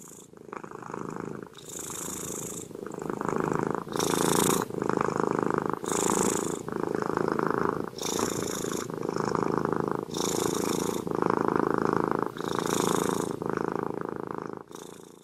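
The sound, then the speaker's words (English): A cat purrs alone in a steady, rhythmic rumble. The low, buzzing purr rises and eases in many regular cycles about a second or so apart and stays fairly loud throughout. “If you guessed cat, you are correct.”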